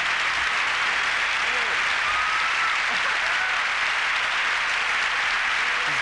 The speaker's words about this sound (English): In the applause breaks in the 90s were much bigger than they are now, I believe. They clap anything.